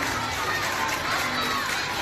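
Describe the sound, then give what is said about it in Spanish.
Cheering and applause as schoolchildren of Colegio Rey Pelayo are sent off from La Escuelona and Colegio del Llano: a dense, continuous crowd din laced with children's shouts. “Así han sido despedidos este miércoles, con aplausos en la Escuelona y el Colegio del Llano”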